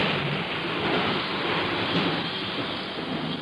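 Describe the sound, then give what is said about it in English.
A storm of wind, thunder and rain makes a dense, continuous roar. Broad hissing rain sits over a low rumbling undertone, holding steady and fairly loud throughout, with no speech. “the sound you hear is the sound of the atmosphere. And the sound of wind. The sound of thunder. The sound of rain.”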